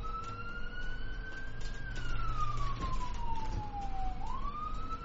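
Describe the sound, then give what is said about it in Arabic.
An ambulance siren arriving on a silent night: one long, moderately quiet wail that holds its pitch, slides slowly downward, then climbs again at the end, over a low rumble. “وصلت سيارة الإسعاف، وأضواؤها وسرينتها تمزق أرجاء الليل الصامت.”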